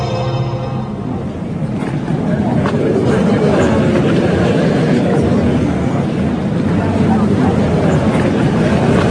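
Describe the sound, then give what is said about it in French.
Crowd murmur fills an airport arrivals hall in Pointe-à-Pitre, Guadeloupe: a dense, steady wash of hushed conversations and rustling in which no single voice stands out. It stays level throughout. “vous n'entendez pas grand-chose, à part le bruissement d'une foule, des conversations à bas bruit, parce que, mais pourtant il y a une foule, on est dans une foule”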